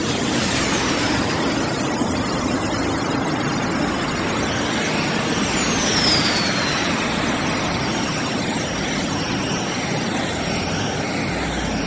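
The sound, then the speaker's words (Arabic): Cartoon sound effect of a space shuttle launching toward Mars: a loud, sustained engine roar that holds steady throughout, with a thin whine sweeping downward midway. “سيدي بلبل، حان الآن موعد إخلاع المكوك الفضائي المتوجه مباشرة نحو كوكب المريخ.”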